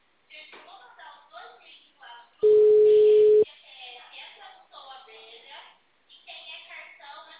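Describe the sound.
A single steady, mid-pitched telephone tone lasting about a second sounds loudly after a dropped call, with people talking on the phone line before and after it.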